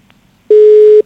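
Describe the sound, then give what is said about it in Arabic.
Busy tone after a phone line is cut off: one loud, steady, mid-pitched beep lasting about half a second, with near silence before and after. “شو عم بيصير؟ نقطع الخط.”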